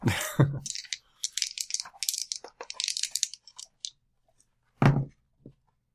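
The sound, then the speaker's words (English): Two six-sided dice rolled during a tabletop game rattle in a quick flurry of many small clicks and clatters, followed by a quiet pause. “Only three. Three. Terrible roll on those 2d6.”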